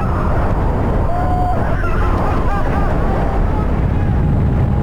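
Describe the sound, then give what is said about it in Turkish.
Strong wind and rain batter an action camera on an electric surfboard crossing the Bosphorus in a storm: a loud, unbroken low roar of wind buffeting, with faint wavering whines drifting above it. “Sörfçüler yağmur ve sert rüzgara rağmen Boğaz'da ilerledi. O anlar aksiyon kameralarına böyle yansıdı.”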